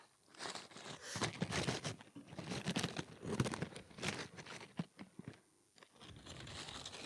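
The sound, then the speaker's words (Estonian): Someone bites into Pringles potato crisps: quiet, irregular crunches and crackly chewing bursts, many in quick succession, with brief pauses between them. “Võtaks amps krõpsu”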